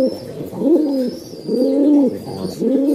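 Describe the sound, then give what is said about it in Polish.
An old pigeon with poor eyesight coos in a pigeon loft, giving repeated low, throaty rolling coo phrases in a steady rhythm, each swelling and fading, with no voices. “To jest Witek, to jest bardzo stary gołąb. On ma problemy ze wzrokiem, ale jest fantastyczny”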